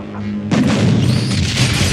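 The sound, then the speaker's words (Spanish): A cinema building explodes and catches fire: a sudden loud boom after a brief lull, followed by a sustained roaring rumble of blast and flames that holds loud to the end. “Billy y Kate se parapetan tras un coche y desde allí ven cómo el cine estalla y se incendia.”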